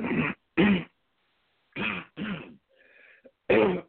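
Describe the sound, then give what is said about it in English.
Rough throat clearing and coughing come as several harsh bursts in uneven groups. Short gaps separate them, and a faint strained hum sits between the later bursts before a final loud cough. No words are spoken. “excuse me, got something in my throat there”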